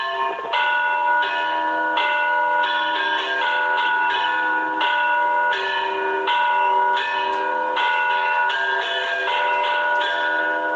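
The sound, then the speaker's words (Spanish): Church bells toll as a death knell for a child, many steady, evenly spaced strikes with bright, layered overtones that ring on between blows, loud and alone with no voices. “Fíjate si dice la campana cosas, que frente a la alegría de la misa festiva, escucha cómo sonaban cuando había un fallecimiento de un menor, de un niño.”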